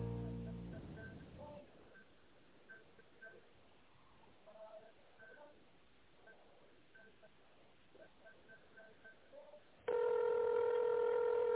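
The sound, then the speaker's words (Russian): Telephone keypad tone sounding on a phone line while calling a company's automated greeting line: a stretch of faint, muffled line sound gives way to one loud, steady electronic tone that holds to the end. “Если вы знаете внутренний номер абонента, наберите его, пожалуйста, в тоновом режиме.”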